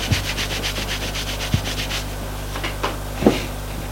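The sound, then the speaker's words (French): A towel soaked with mint alcohol is rubbed over a person's face and arms, giving soft rhythmic swishing strokes that come quickly at first and then give way to a few light bumps, with no talking. “Il met l'alcool de menthe sur la serviette et suit le visage de son ami. Le visage et les bras.”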